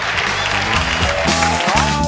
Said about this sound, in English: Then that's where you cue the cheering.